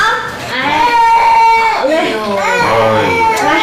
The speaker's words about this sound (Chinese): 大老远的听着他们在这儿哭，要不知道的还以为你们这儿是托儿所呢。